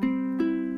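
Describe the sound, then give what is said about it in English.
A ukulele with all four strings strummed together, tuned and played open: three bright chord strums ring out one after another, each sustaining a clear harmonic tone. “So, this is the normal ukulele sound.”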